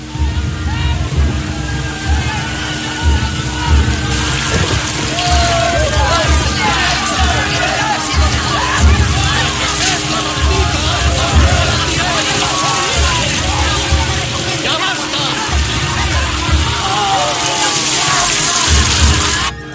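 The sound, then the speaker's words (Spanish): Rain pours onto a sailing frigate speeding through the sea in strong wind, a dense, steady wash of water noise throughout, with many voices shouting and cheering over it. “El viento sopla con fuerza, haciendo que la fragata surque las aguas a gran velocidad. Ha comenzado a llover.”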